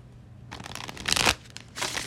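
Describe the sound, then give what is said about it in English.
A deck of tarot cards being shuffled: soft papery riffling in short flurries, with a busier burst in the middle, a brief pause, then another quick riffle. “I will be shuffling the tried and true Tarot Mucha.”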